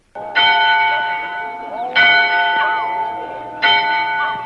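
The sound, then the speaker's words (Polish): A church bell in a single red-brick tower of a small village church rings the Angelus: three slow, loud strokes, each with a bright metallic clang that hums on and fades before the next. “Bije dzwon na anioł pański z wieży polskiego kościoła w polskiej wsi zgubionej w Weskresach Teksasu.”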